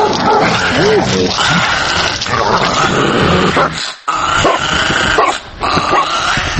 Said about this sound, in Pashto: د کندهار اوسیدونکي وایي په ځینو ځایونو کې دغه سپي په ډله ډله ګرځي